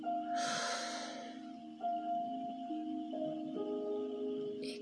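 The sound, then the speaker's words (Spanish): One deep inhaling breath, about a second long, taken during a guided breathing exercise, a soft airy rush followed by quiet sustained musical tones. “Sostén y sopla. Vamos a repetirlo. Inhala.”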